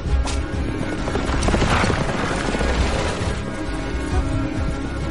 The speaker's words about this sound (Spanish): El carruaje avanza por el bosque.